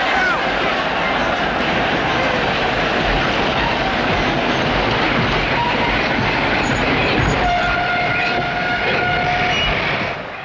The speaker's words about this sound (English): People dart across the tracks as the train slows.